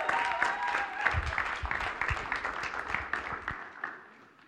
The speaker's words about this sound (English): Why don't we give him a big hand? Why don't we welcome him?